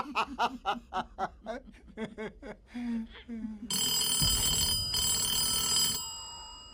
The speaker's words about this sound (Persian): بلش کن، بذار زنگ بزنه. احتمالاً مزاحم تلفنی.